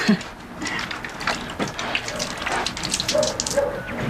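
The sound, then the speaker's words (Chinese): Water runs from a tap while hands are washed beneath it, a continuous hissing splash with uneven bursts and spatters as the hands move under the flow. “我们去洗手先，走。”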